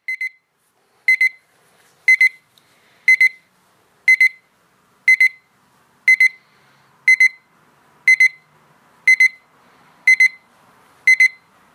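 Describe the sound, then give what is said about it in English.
An alarm clock rings with a dozen short, high-pitched electronic beep bursts, about one per second, in a steady even rhythm with silence between them. “It's an alarm.”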